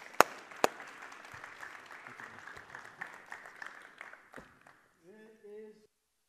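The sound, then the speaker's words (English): Audience applause welcoming a speaker at a church service, a soft steady patter of clapping with a few sharper claps early on, then a brief whining tone of microphone feedback as it dies away. “So would you guys put your hands together and give Chad Erlenborn a warm Revision welcome this morning?”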